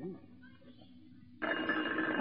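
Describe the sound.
A telephone begins ringing abruptly after a nearly silent stretch, giving a steady, buzzy tone that holds to the end.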